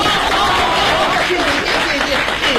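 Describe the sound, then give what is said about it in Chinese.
Audience applause at a live comedy stage show, a dense, continuous wash of clapping that stays loud and even from start to finish. “谢谢大家的掌声啊！”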